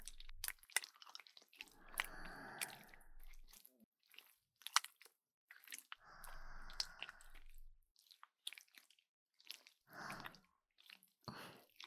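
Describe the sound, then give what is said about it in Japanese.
Liquid jelly is spread by hand over the ears for an ear massage: soft, sticky squelches and wet clicks come in irregular bursts, with longer smeared swishes between them. The sound stays quiet throughout. “君の耳をマッサージする。最初は手で君の耳に液体のゼリーを塗っていくよ。ちょっと準備するね。”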